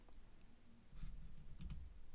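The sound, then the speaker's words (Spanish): A computer mouse clicking on a title, with a few quick, faint clicks close together against a quiet background. “Pero hiciste clic en el título.”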